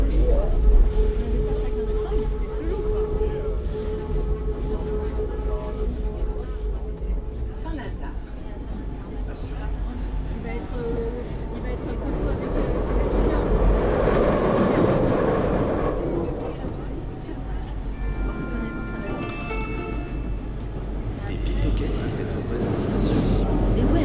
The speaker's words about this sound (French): Me voici dans le métro.